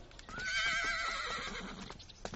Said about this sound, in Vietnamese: Con cởi ngựa đi dạo một vòng, mẹ đi không?